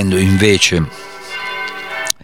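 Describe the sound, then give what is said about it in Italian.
Church bells ringing with a sustained, steady metallic tone full of layered overtones. A voice speaks just before the ringing, and a sharp click cuts in near the end. “Le campane di Sant'Agostino hanno ripreso a suonare”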